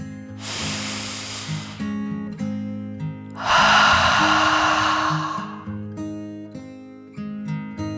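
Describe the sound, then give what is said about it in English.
Two long, deep breaths, soft airy rushes with the second fuller and louder, each lasting over a second, over quiet sustained music. “Allie took another deep dragon breath, calming her body in and out.”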